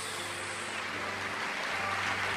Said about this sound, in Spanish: Denle un aplauso al Señor por eso.